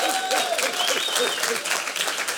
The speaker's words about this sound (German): da wird geklatscht.